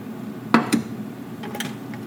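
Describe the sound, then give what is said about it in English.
A saucepan is set back down on a stovetop while chocolate eclairs are being made: two quick metallic clanks, then a few fainter knocks. “Going to move my hand mixer off to the side and put my saucepan back on the stove over a medium-high heat.”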